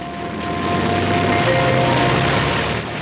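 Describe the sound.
Airplane engine drone as a plane takes off for a long-distance solo flight, a constant, broad roar that swells slightly and holds evenly throughout.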